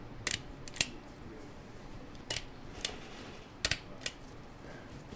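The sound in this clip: A stapler drives staples through a solar panel into a soft backpack, producing sharp metallic clicks that come singly and in quick pairs at irregular intervals over a faint background hiss.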